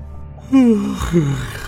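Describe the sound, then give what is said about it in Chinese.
A man yawns in a dramatized scene, a drawn-out voiced yawn that slides downward in pitch, followed by a shorter, softer voiced breath out, with nothing else in the background. “傅志打了个哈欠，”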